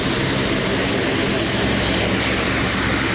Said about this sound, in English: at Charlotte Douglas International Airport in North Carolina as two C-130H models spool up, getting ready to head west.